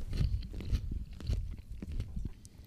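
Crunchy bites and chewing of a pickle, many close, crisp crunches in an uneven rhythm, loud and alone with no voices.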